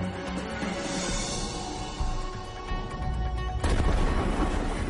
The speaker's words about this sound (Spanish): Explotó en el aire, a 30 kilómetros de la Tierra, generando una poderosa onda expansiva.